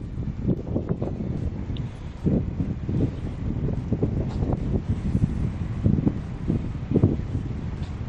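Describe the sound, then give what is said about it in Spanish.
Gusty wind from storm Carlota during an orange weather alert, blowing through towns around Ferrol and buffeting the microphone with rumbling surges and hissing noise, with no talking. “Así es como sopla el viento a estas horas en los municipios de nuestras comarcas.”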